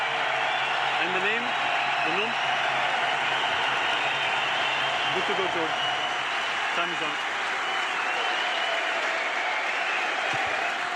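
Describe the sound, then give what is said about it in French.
Rugby stadium crowd giving a long ovation as a substituted player leaves the field, with dense, sustained applause and cheering that stays steady throughout while commentators talk over it. “Oh, et la sortie, là, écoutez. Allez, l'ovation.”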